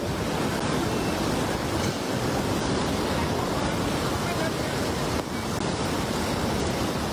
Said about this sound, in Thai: น้ำเชี่ยวมากนะครับน้ำเชี่ยวมากนะครับ